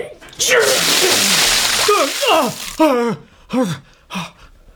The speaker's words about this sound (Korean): 방금 길어 올린 차가운 우물물 두 양동이를 맞고서야 퍼뜩 깨어난다.